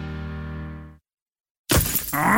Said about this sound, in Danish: Et stenslag! Det skal du få fikset, for en skadet rude revner let, når det er koldt.